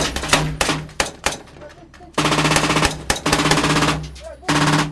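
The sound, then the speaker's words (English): Gunfire in a firefight, with rounds striking an armored vehicle: loud, rapid cracking volleys in several sustained bursts separated by brief lulls. “Rounds hit the armored vehicle.”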